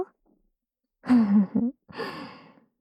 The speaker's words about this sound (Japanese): 君の大好きな、お耳ふうふうのお時間ですよ。